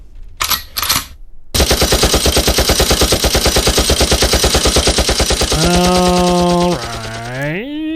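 Machine gun fire sound effect: a long run of rapid, evenly spaced loud rattling bursts after a few short noisy blasts, ending in a sustained harmonic tone that rises in pitch near the close.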